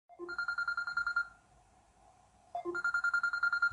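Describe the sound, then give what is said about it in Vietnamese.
A mobile phone rings inside a car being driven: two loud bursts of a bright, rapidly pulsing electronic ringtone, separated by a short quiet pause, with no talk over it. “Hạ Phong nghe được tiếng chuông thì móc di động ra.”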